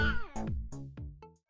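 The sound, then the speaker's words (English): Cat meowing several times in quick succession: harmonic, mid-pitched cries, the first sliding downward in pitch. No voices are heard. “My favourite feline and I had a great afternoon getting them on, and the scratch marks are healing nicely. Isn't that right, Admiral?”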